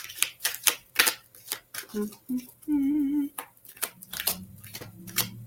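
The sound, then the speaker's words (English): A deck of unicorn oracle cards is shuffled and drawn, giving many quick, crisp clicks and snaps in irregular bursts, with a voice talking between them. “I love these unicorn cards. They're just so beautiful. All right. You got Red Jasper.”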